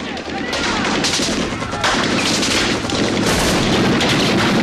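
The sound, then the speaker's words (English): Military men fire their weapons blindly into a vast tree-covered hillside. The heavy gunfire forms a dense, unbroken roar of many overlapping shots that stays loud throughout. “They pepper a vast tree-covered area with bullets.”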